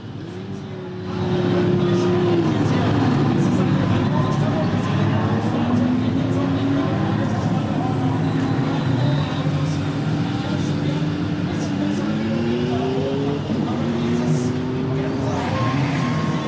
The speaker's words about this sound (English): They've started their engines. They're clearing the pit. They're clearing the grid. Ready for the formation lap.